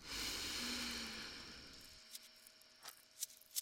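A deep inhale during a guided breathing exercise: a soft, steady breathy rush lasting about two seconds, then fading into near-silence with a few faint clicks.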